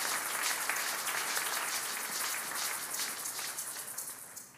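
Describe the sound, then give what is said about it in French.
Applause from a church audience: dense, steady clapping with many overlapping claps, fairly loud, thinning and fading toward the end, with no voices. “Si on peut acclamer le nom du Seigneur.”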